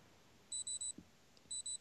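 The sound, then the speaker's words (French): A remote control locator, set off from a tablet, beeps like an alarm clock: a quick run of three high-pitched electronic beeps, a short pause, then two more. The beeps are faint and heard alone. “Non, ça sonne comme un cadran le matin. Ça sonne comme un cadran ou une montre qui sonne là,”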